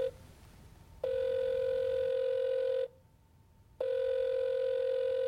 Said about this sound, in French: Lorca reste songeur, puis se décide et saisit son téléphone. À la troisième sonnerie, son correspondant décroche.